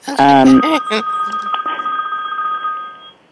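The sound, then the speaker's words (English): A mobile phone rings with a steady, pulsing electronic tone that carries on for a few seconds and then fades. A voice speaks briefly at the start. “And pardon me, that's my phone. I need to turn that off.”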